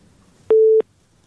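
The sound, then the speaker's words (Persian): A telephone busy tone sounds once after a caller's line is cut off. The single short, steady, mid-pitched beep is loud and stands alone against near silence. “صدا شما رو داریم، قطع شد صداشان، تماس دیگه میگیریم”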